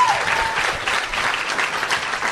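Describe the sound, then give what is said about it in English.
A live audience applauds with dense, steady clapping that holds at a loud, even level from start to finish. “let's have a round of applause for Patty Davis”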